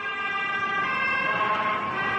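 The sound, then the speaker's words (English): Ambulance sirens wailing in Stockholm after an attack, a loud, steady siren tone holding throughout. “Sirens, lots of them. Ambulances speeding past, with more following suit. A seemingly endless symphony of sirens.”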